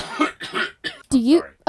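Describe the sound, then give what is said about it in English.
A person coughs in a few short, throaty, hoarse bursts, then ends with a longer voiced sound. “I'm sorry, I just coughed.”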